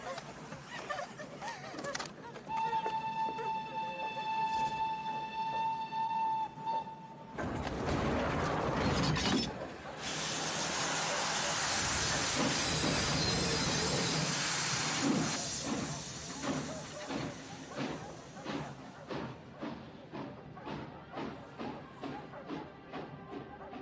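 Steam train sounds from a dubbed film scene: a sustained whistle-like tone, then a loud, steady burst of hissing steam, followed by rapid rhythmic mechanical chuffing.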